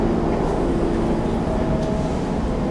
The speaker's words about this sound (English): Are you Shazamming the subway right now?